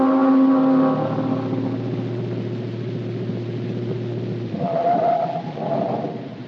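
A car drives along with a low, steady engine drone, opening with a brighter harmonic whine that drops away, then shifting in tone near the end; no voices are heard.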